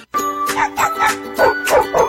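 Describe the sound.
A dog barks in a quick run of about six sharp yaps, loud and evenly spaced, over a steady tonal music bed.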